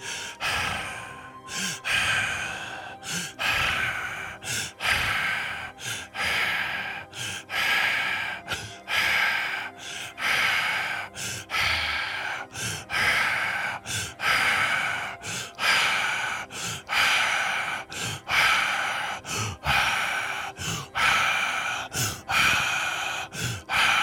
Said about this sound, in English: Returning to the slower breath from the Hari.